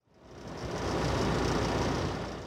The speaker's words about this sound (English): Pumps churn at a construction site in northeastern Sioux Falls.